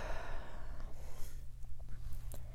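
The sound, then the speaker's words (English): A slow, deep breath in and out during a calming breathing exercise, heard as a soft, continuous airy rush that eases slightly toward the end. “And again, drawing another full deep breath in and exhale.”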